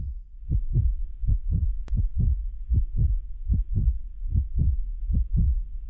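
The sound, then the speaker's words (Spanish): Heartbeats: low, thudding lub-dub double beats repeating at a slow, steady pace, heard alone throughout. “Allí estaban solos, la mujer y él, y podían escucharse, con cristalina claridad, los latidos de sus corazones.”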